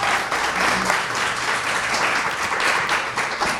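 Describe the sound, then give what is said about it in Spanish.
An audience claps steadily to welcome a performer at a music event, a dense, even wash of applause that holds at a constant level for the whole clip. “Le pedimos un fuerte aplauso para Ramiro González.”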